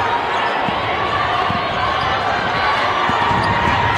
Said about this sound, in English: Nice dribbling